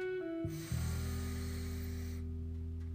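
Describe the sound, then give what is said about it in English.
A deep breath is drawn in during a breathing exercise. The inhale is a steady, airy hiss lasting under two seconds, over low, sustained droning tones. “I want everyone to just take a moment to breathe in,”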